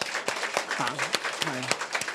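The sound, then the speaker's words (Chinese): Scattered clapping from a gathered audience honoring fathers, a few sharp claps spaced irregularly while voices talk over them at a moderate level. “趁今天我们给一些掌声我们的父亲好吗？”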